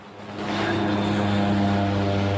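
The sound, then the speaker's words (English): Propeller plane taking off in a cloud of dust near the jungle, its engine drone swelling quickly in the first moments and then holding a loud, steady, buzzing roar. “The plane takes off in a cloud of dust.”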